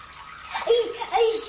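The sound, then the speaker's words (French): Water running from a tap makes a steady splashing hiss, with a child's babbling voice and light chuckles mixed in over the flow. “Alors, le robinet, alors. Arrête le robinet, maintenant. Laisse-le.”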